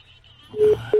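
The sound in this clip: Telephone keypad tones sound as a number is dialed, two short, clear electronic beeps in quick succession after a brief stretch of faint low background noise.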